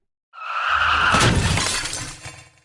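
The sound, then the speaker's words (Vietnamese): A crash of cars colliding head-on and rear-end on a highway: one loud burst of shattering glass and impact noise that rings on and slowly fades. It is heard alone, without talk. “Xe ô tô trên đường quốc lộ vì muốn tránh né Triệu Ngọc, nhất thời rơi vào trong hỗn loạn, có xe đụng phải đầu, có xe đụng trúng đuôi.”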